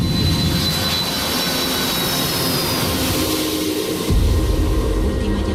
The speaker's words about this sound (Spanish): Hoy nos hemos subido de nuevo a un avión de Iberia, pero esta vez después de darle al play.